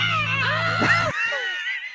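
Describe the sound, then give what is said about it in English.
The stock Wilhelm scream, edited over a televised scene: a short, strained cry with wavering pitch rides over a low hum that cuts off partway, followed by a fading high tail. “They edited in the Wilhelm scream on top of it. Amazing. That is not somebody screaming.”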